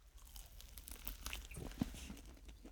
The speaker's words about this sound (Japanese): お、唐揚げくんよりちょっとサイズが大きいです。美味しそう。はぁ、いい匂い。お腹鳴っちゃいそう。では、いただきます。